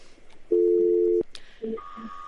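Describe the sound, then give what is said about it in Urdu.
A telephone tone sounds after a caller's line drops during a phone-in call. A steady, clear beep lasts under a second and ends in a click, then a fainter, higher tone follows. “مختار وسیم، اچھا ان کی line drop ہو گئی”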